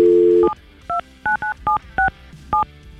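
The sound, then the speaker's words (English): A telephone number is dialled on a touch-tone phone: a steady dial tone cuts off, followed by seven short, crisp keypad beeps at an uneven pace. “let's see if she answers a phone and what she has to say.”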